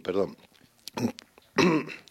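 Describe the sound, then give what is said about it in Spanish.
Throat clearing caused by allergy, three raspy, voiced rumbling bursts from one person with short pauses between them. “Perdón, que oís la garganta, con la alergia es que se nota.”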